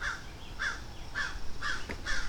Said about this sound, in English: there's some birds freaking out above me. I do not know what their birdie problem is.